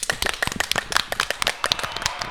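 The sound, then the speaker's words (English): Applause for frontline healthcare workers: a dense, irregular run of sharp, crisp claps from a few pairs of hands, fairly loud and heard alone for about two seconds. “Applause to the frontliners.”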